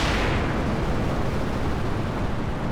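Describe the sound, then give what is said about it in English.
A SpaceX Starship rocket explodes minutes after launch, heard as a dense, continuous rumbling roar that stays loud and unbroken throughout, heavy in the low end with a crackling, noisy texture. “When the launch finally went ahead last week, the new Starship exploded a few minutes into launch.”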